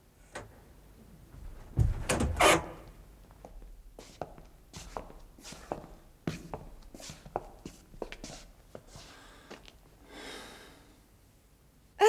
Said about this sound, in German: Ich werde die Tür wieder schließen.